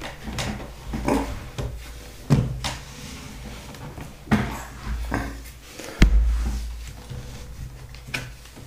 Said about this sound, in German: Dann stelle ich mal meinen Laptop wieder. Der ist ja nun jetzt aufgeladen. Den kann ich ja mal wieder rüberstellen auf den anderen Schrank.